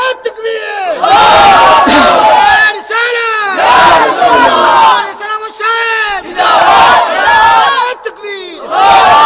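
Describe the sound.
An audience shouts back to a preacher in several loud, sustained bursts of massed voices. Each roar swells and fades, and brief gaps separate the rounds.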